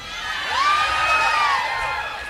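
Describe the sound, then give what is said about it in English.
A crowd at a live show screams together in a sustained swell of raised voices, with one shrill voice rising and then holding level before the noise eases slightly. “we're gonna do a little progressive screaming together.”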